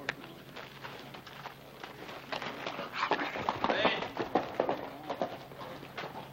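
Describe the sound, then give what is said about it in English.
Horse hooves clip-clop as a rider comes down a street, a steady run of many uneven hoofbeats mixed with other background noise. “That's Hoss Cartwright riding down the street.”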